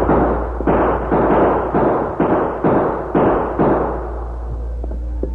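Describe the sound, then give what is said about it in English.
Gunfire volley in a Western radio drama skirmish at a chief's teepee, a rapid series of sharp, loud cracks about half a second apart, each with a short ringing decay, ending in a quieter low hum. “Indian, take cover. Another volley.”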